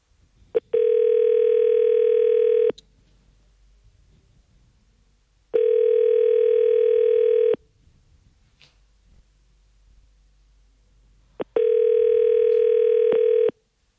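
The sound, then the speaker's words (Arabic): A telephone rings three times on an unanswered call, each ring a long, steady electronic tone of about two seconds, with silent gaps between them. “جان التليفون كيصوني، حنان ما جاوبتناش.”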